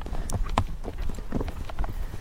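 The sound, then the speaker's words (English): A horse's hooves on a ride around a quiet neighbourhood block: a few faint, irregular clip-clop strikes over low background noise. “I just want to walk him, get his muscles loose, take him for a small trot or canter, which is a jog or lobe in Western terms.”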